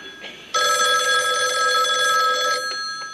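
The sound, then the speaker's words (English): A telephone ringing: one loud, sustained electronic ring with a bright, steady tone that lasts about two seconds and then stops abruptly. “Answer the phone, baby.”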